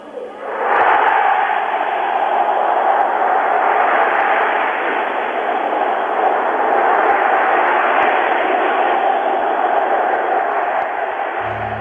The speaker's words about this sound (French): Nous avons acclamé la France nous avons acclamé l'Algérie française. Je vous demande d'acclamer l'armée.